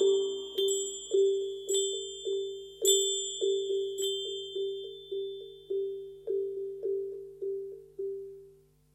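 A small hand bell rings alone in a steady run of many bright, high strikes, each clear tone ringing on and fading into the next.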